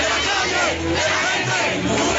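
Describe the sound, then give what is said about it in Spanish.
Crowd cheering and chanting for Humberto de la Calle as he arrives to celebrate being chosen the Liberal party's sole presidential candidate: a loud, dense, continuous roar of voices that holds steady throughout. “Humberto de la Calle fue recibido en medio de aplausos y arengas para celebrar su triunfo al ser elegido como el candidato único del liberalismo para la presidencia de la República.”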